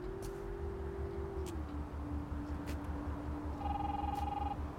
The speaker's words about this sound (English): He stops and steps back to answer his phone.